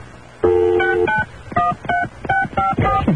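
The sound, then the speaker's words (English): A telephone number is dialed on a keypad, producing a quick, uneven run of many loud, clear touch-tone beeps, with no voices. “Oh, is this a different number? Yeah, try that as a direct dial. 1-800 or? No, 703.”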